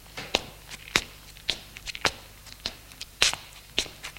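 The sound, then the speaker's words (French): Footsteps climb a set of terrace steps, a series of sharp, separate footfalls at a steady, unhurried pace, clear against a quiet background. “monte les trois marches de la terrasse et va vers la porte d'entrée. Ouvre. Entre sans éclairer.”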